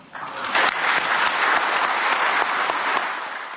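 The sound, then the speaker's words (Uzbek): Thunderous applause from a crowd greets the Uzbek president's speech: dense, loud, steady clapping that holds for the whole stretch. “Guldiroz qarsaklar ostida gap boshlagan O'zbekiston prezidenti.”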